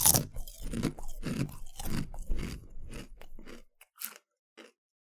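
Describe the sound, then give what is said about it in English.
Crisp, loud crunching and chewing of chips in ASMR style, with many rapid bites in a steady run that stops abruptly, followed by a couple of faint clicks. “Well, ASMR chip action. Here we go. That everyone enjoys. I apologize for doing this to you.”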